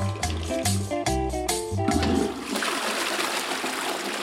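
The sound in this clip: Urine streaming and splashing, entered in a peeing contest, comes after a brief musical jingle and runs as a steady, hissing splatter of liquid for about two seconds.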